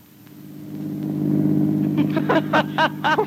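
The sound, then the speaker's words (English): A car drives fast along a curvy road, its engine a steady low drone that grows louder over the first part, with people talking during the latter half. “Careful, that's a bad curve up ahead. Don't drive so fast.”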